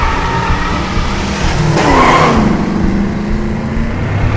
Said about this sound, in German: Das Lenkrad ist fixiert, das Pedal gedrückt. Jetzt Gang rein.